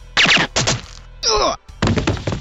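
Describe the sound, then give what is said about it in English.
Gunshots ring out in the video game GoldenEye 007 as a guard is finished off: several sharp, clipped blasts in two loud groups, separated by a short warbling electronic tone. “We finish off the guard after a couple more shots.”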